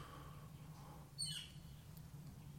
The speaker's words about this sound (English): I don't know what bird that is.